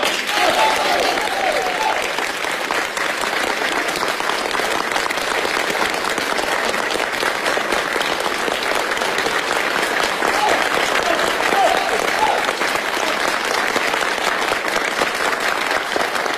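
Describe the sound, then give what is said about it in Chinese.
Long, warm applause from delegates at a Beijing folk-art association conference. Dense, even clapping holds at a steady level for the whole stretch without dying down. “与会代表的长时间热烈掌声也说明了这一点”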